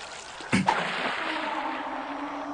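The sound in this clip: Water is scooped by hand from a clear spring with two quick splashes close together. A faint, steady wash follows.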